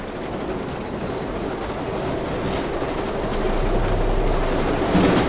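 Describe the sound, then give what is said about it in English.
A train picking up speed along the track, its rumbling, rattling wheel noise steady and dense, swelling slightly louder toward the end. “The train is moving faster, shaking more than it did.”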